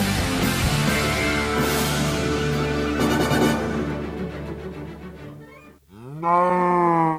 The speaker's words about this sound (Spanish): Esta no es nuestra vaca. No, ya, pero esta vaca va en serio.